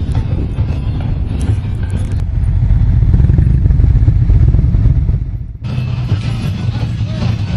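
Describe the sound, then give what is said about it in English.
Motorcycles riding into a parking lot full of bikes, their engines making a continuous low rumble with wind buffeting. The sound swells in the middle, dips briefly, then resumes. “They're riding in, and things are looking good. Got a parking lot full of bikes. More coming in all the time.”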